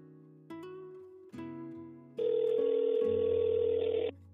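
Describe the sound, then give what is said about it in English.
A telephone ringback tone plays as a call is placed: steady electronic tones that shift in steps, then a longer, louder sustained tone. No voices are heard. “I'm just gonna call him.”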